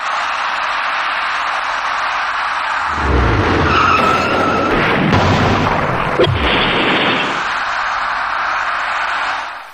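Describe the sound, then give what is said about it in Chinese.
A box van rear-ends a white car in slowing road traffic: a loud, drawn-out tire screech and heavy impact noise rise over a steady roar of traffic, then the traffic roar continues. “司机的鲁莽急躁导致厢式货车猛然追撞上前方的白色小客”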